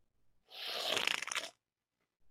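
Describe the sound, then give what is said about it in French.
A can of Coors Light beer being opened gives one faint, roughly one-second burst of crackling, fizzing hiss that ends abruptly. “Alors, sur ce, je vais ouvrir ma Coors Light.”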